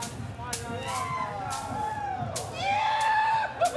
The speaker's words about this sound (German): Aha, und das gehört dann offensichtlich dazu, das laut rufen.